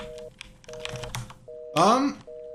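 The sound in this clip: An electronic telephone ringing inside a video game, sounding as short bursts of a steady, mid-pitched tone repeating in an even on-off pattern, with other clattering game noises between them.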